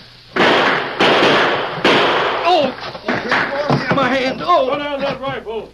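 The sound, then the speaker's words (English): Gunshots from six-guns and rifles: three loud, sharp cracks at roughly even intervals, followed by people talking excitedly. “We heard the shooting.”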